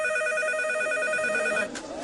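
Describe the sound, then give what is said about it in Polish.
A telephone rings with a single electronic, buzzing multi-tone burst and a rapid warble, holding steady for about 1.7 seconds before it cuts off. “Waldi, telefon.”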